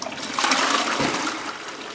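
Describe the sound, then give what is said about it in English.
A water-saving low-flow toilet gives a half flush: a steady rush of water lasts about two seconds at an even, moderate level, with no voices. “Yeah, you notice the low amount of water in there to conserve water. So here's the half flush.”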